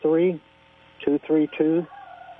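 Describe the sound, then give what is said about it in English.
A rooster crows over a narrow telephone line: one short call, a pause, then a broken multi-part crow in three quick loud bursts. “Rooster. Rooster. Did you hear the rooster in the background?”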